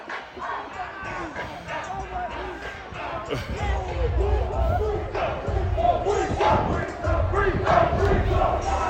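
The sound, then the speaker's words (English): Students cheering and yelling along with a marching band at a school rally, forming a dense, continuous crowd roar with shouts that grows louder midway and stays steady to the end. “That sound is Spoon carrying the "We Run This State" sign and the band and the students cheering.”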